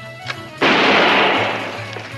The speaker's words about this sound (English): These guns are identical to the one that killed Jim Johnson. Watch carefully as I test fire this gun into these videotapes of Barbara Walters' interviews.